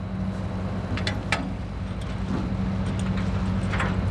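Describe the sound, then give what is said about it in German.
A helicopter prepares to land near an LNG terminal at sea, giving off a steady, low engine drone with humming tones and a few faint higher clicks over a constant rumble. “Der Helikopter kann den Bereich um das LNG-Terminal schneller absuchen und Gefahren identifizieren. Vorbereitungen für die Landung.”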